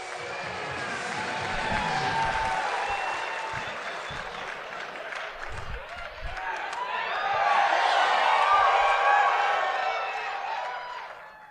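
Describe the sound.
Audience at a live comedy show applauding and cheering as a comedian is brought on: a dense, sustained wash of clapping and whoops that holds steady, then swells louder near the end before easing off.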